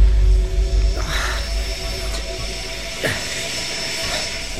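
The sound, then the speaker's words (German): A police helicopter at night gives a continuous mechanical drone with low rumble and rattling, whirring texture, and a few swishing sweeps pass through the steady noise. “sondern ein Hubschrauber! Ach, siehst du, Peter... Quatsch! Das muss die Polizei sein!”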